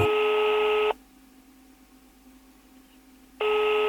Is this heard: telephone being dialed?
yes